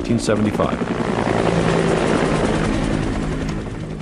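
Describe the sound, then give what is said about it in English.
Helicopters ferrying evacuees out of Saigon to U.S. ships offshore in April 1975 make a loud, steady, chopping roar of rotors and engines that thins slightly toward the end. “Here again, the sound of helicopters ferrying people out of Saigon to U.S. ships offshore, April 29th,”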